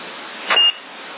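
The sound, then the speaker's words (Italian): A single short, high electronic beep on a CB radio channel, lasting a fraction of a second over steady, thin radio hiss. “Ehi, a chi è questo bip?”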